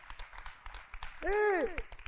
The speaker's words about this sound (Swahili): Jipigieni makofi. Jipigieni makofi mbona wala aibu.